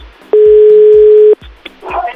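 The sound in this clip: A telephone dial tone as a call is placed: one steady, mid-pitched tone lasting about a second, set among a few low thumps and clicks, with a brief voice near the end.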